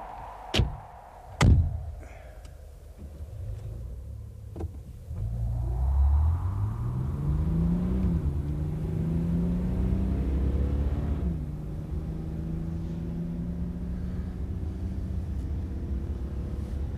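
Car driving off: a few sharp thuds, then the engine starts. Its low rumble climbs in pitch and settles into a steady, droning run to the end.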